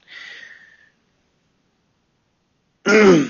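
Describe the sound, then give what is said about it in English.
A person clears their throat in one short, gruff burst near the end, after a softer breathy rasp and a stretch of silence. “I'm gonna go back and count how many times I I cleared my throat. I think it's been at least six right now.”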